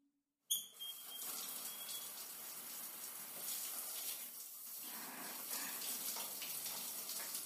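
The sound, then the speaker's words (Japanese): Running water rinses off oil. After a short silent start it bursts on at once and flows on loud and steady, a constant rushing, splashing stream with no talk. “じゃあ、さっきついたオイル流しちゃいますね。”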